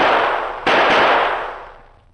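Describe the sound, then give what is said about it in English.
Gunshots as a man fires his last three bullets, sharp loud reports in quick succession, each trailing into a long fading tail. “Three bullets left, Silver. I'll fire them now.”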